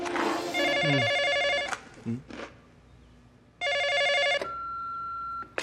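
A telephone bell rings in two trilling bursts separated by a pause, just before an answering machine picks up; a steady tone follows the second ring.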